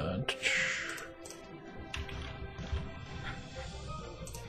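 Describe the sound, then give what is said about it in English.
Computer keyboard clicking during typing: sparse, faint keystrokes tapping at an irregular pace over a low, steady background hum. “Sorry, everyone, having to deal with the passive clicking of my keyboard.”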